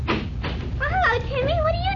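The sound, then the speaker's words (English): A door is opened with a couple of brief clattering knocks at the start, then people talk over it. “Shall I open the door, sir? Yeah, go ahead, Collins. Tell them to come right in.”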